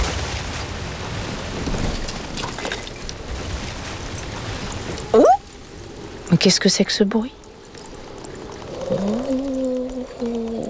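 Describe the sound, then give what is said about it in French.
A piece of sea ice breaks off with a long, rumbling, crackling roar that suddenly cuts off. A voice then speaks, and higher tonal calls follow near the end. “C'est un bout de la banquise qui vient de se détacher.”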